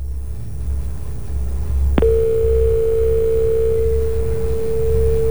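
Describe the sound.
A telephone dial tone sounds after a caller's line drops: a sharp click is followed by a steady, unbroken pitched tone over a low hum.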